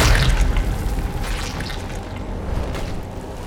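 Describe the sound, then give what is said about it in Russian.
A player's body bursts into bloody dust on a watchtower: a heavy, low boom at the start spreads into a loud, wet, rumbling wash that slowly thins out, with no voice over it. “Тело игрока взорвалось кровавой пылью, оставив на смотровой вышке лишь скелет.”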